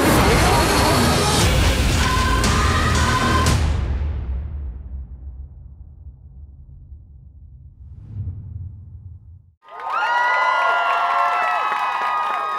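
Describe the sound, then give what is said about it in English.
A studio audience at a live panel event cheers and applauds in a loud burst that fades away after a few seconds, leaving a quiet stretch before a voice comes in at the end. “That's a pretty good crowd. Yeah, thank you for coming.”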